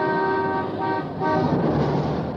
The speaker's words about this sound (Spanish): El claxon de este automóvil a un metro de distancia produce 115 decibeles y representa un serio peligro cuando estamos expuestos durante 15 minutos a ese ruido.